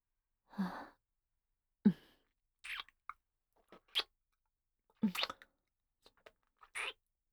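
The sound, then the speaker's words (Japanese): Soft wet kissing sounds on the mouth and cheeks come in a loose series of brief smacks with pauses between them, some lip-smacking and faint, with no talking. “それではお口とほっぺにたくさん甘々チュッチュさせていただきます。”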